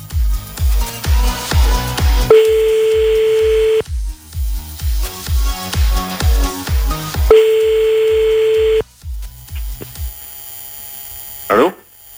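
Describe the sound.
A ringback tone on a French phone line as a new call is placed after reaching an answering machine: two long, steady mid-pitched tones about five seconds apart, over a rhythmic thumping beat.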